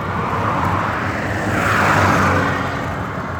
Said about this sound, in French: Ah, il y a plein de voitures. Un bus.